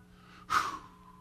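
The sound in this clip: One sharp, breathy rush of air lasting about a quarter second, offered as an act of praise during a worship sermon. It rises abruptly out of a faint steady hum and quickly fades.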